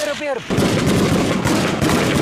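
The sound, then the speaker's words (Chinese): Loud gunfire exchanged between armed fighters and government soldiers in conflict footage from Yemen, dense rapid shots following one another almost without pause. “胡塞武装人员则在不同位置向对方阵地开火”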